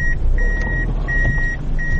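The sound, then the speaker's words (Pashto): Reversing beeps from a black Toyota Fielder car manoeuvring back and forth to park by the roadside: a few long, steady high-pitched beeps repeat over a low engine and traffic rumble. “دا د سړک پر سر خپل تور رنګ فیلډر موټر شاو مخته کوي تر څو قانوني یې ودروي.”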